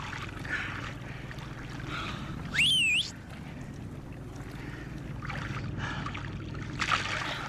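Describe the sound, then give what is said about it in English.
A boat on open water, far off, gives a low steady engine hum under wind noise, with a brief rising whistle-like tone sounding once near the middle. “Just let them see us and pick us up. Come on. Oh God. They wave to a distant boat.”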